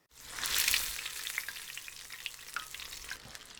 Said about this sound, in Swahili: Rudia mchakato huu na ukaange vipande vingine vya tofu vilivyosalia.